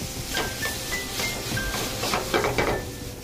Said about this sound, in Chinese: 那我们稍微炒一下下，把我们的红枣还有枸杞里面的糖分先炒出来